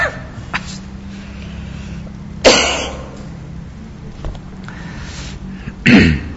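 Coughs interrupt a religious lecture on zakat: two loud, sharp coughs several seconds apart, with a fainter throat sound between them, against a quiet background.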